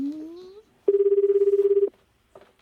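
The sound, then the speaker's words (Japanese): Telephone ringback tone during an outgoing call: a short vocal sound comes first, then one steady, rapidly pulsing burst lasting about a second, followed by silence and the start of a second burst. “電話しよう、電話しよう、 出ないかな、 つながるかどうか、 出るのかな、 くぼっち”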